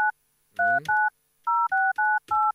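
Telephone keypad tones as a number is dialled: a quick series of short, clean dual-pitch beeps separated by brief gaps, loud and alone, with a little handling noise under one of the early beeps.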